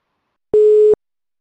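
A telephone line tone sounds while a phone call is being placed: one steady, mid-pitched beep lasting under half a second, alone with no other sound around it.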